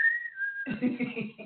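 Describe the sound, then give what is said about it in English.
A person whistles to imitate a mother's piercing call for her child: a single high, sustained note that dips slightly in pitch, followed by talk. “My mom had a piercing whistle that could be heard over three counties.”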